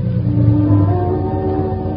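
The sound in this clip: A car engine drones steadily as a car pulls up near a bridge, giving a continuous low hum with a slight swell early on and no clear stop. No voices.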